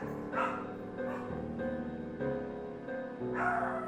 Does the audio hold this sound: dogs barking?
yes

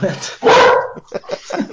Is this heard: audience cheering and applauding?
no

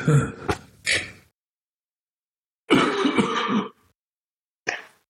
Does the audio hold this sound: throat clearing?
yes

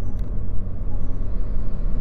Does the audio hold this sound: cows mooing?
no

